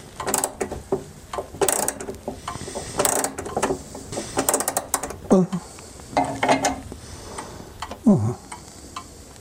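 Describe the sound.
Mechanical clicking and ratcheting as a 60-year-old wall clock is carefully wound with an iron key, coming in irregular bursts of small metallic ticks separated by short pauses.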